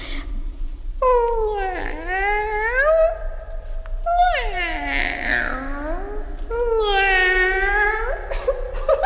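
Cat meowing in a children's story recording: three long, drawn-out, wavering meows with separating pauses; the middle one is rougher and more strained, and the last one rises and falls.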